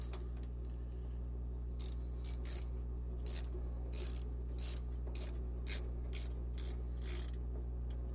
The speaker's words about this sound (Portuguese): o torque que esse negócio, que esse parafuso dá é um negócio absurdo. Vocês não têm noção da força que eu tô fazendo.